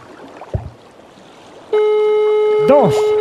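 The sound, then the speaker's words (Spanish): Ringing tone of an outgoing phone call, a steady electronic tone that starts partway through and holds to the end, with a brief voice sounding over it and a short spoken sound before it. “Mira. Una llamada.”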